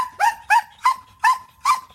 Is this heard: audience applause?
no